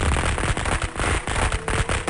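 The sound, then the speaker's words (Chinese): Firecrackers explode in a dense, unbroken volley from a pile at a doorway in a mountain village, with loud overlapping cracks and pops running through the whole stretch and no voices. “鞭炮声在山村里久久回响，仿佛惊天的巨雷前行而来。”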